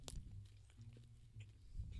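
Quiet chewing of a Neapolitan pizza from a kitchen car, with soft, irregular mouth sounds and light bites that run steadily at low volume.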